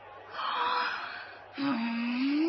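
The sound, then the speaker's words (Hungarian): A long voiced yawn in two parts: a breathy open-mouthed inhale, then a drawn-out vocal groan whose pitch slowly rises, fairly loud and alone. “Mi volt ez az ásítás?”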